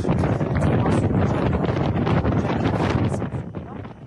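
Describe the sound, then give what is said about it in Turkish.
Wind buffets a microphone outdoors in New York, producing a loud, constant low rumble and roar with gusty fluctuations that ease slightly toward the end. “evet, New York'ta rüzgarlı bir hava var.”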